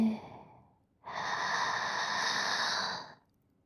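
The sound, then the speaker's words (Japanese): A deep, slow breath taken during a calming breathing exercise: after a short silence, one long, steady airy breath lasts about two seconds, soft and alone, then fades out. “ねえ、深呼吸しよっか。はい、吸って、”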